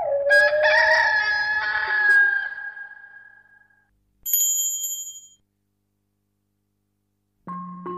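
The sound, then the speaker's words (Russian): A rooster crows in one long, loud harmonic call lasting a few seconds. It is followed by a brief bright ringing and then a short low tone, with no talk. “А петух закукарекал!”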